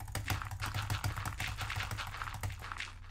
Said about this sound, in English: it's time to butterfly click, boys. This is what you need to win in replica.